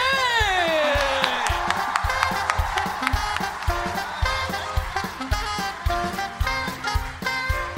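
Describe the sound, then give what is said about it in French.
A live audience at the Bataclan cheers and whoops to welcome the guest Mister V, the crowd noise running loudly throughout under a punchy jingle with a falling tone and steady rhythmic beats. “Faites un maximum de bruit pour Mister V.”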